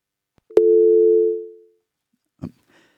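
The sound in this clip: A telephone line tone from an incoming call that failed to connect: one steady, clear tone of about a second that fades away, followed by a short click.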